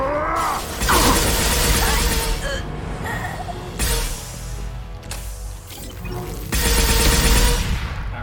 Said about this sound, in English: wanted to blow up that explosive canister, you know?